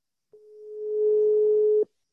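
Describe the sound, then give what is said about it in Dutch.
A single telephone ringback tone sounds while calling someone at home: one steady, mid-pitched tone lasting about a second and a half, swelling slightly in loudness before cutting off, with no voices. “We gaan jou nu eventjes bellen om te vragen wat, hoe volgende week eruit ziet.”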